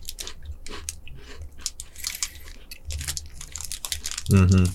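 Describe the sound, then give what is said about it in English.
Crisp biting and chewing of a chocolate cookie, with many small crunches and crackles in an irregular run and a louder, fuller burst near the end. “It tastes like those Keebler Stripe cookies.”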